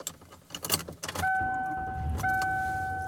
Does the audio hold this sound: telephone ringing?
no